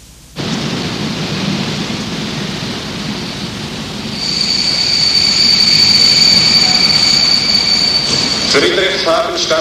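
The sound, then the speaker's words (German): A train pulls into its terminus station: a low rumble starts abruptly, swells louder midway as a high, steady wheel-and-brake squeal rings out for several seconds, then breaks into a brief clatter as it ends. “Friedrichshafen Stadtbahnhof, bitte alles aussteigen, der Zug endet hier.”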